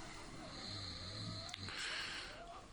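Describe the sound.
A man, a father, snoring in his sleep: one drawn-out, rough, low snoring breath, fairly faint and alone.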